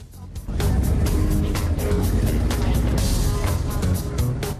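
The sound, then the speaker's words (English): Engines of two black 4x4 cars pulling away from the curb outside international arrivals in Cape Town: a brief quieter start, then a loud, steady rumble of motors that holds to the end. “They get into two black 4x4s parked at the curb and drive off.”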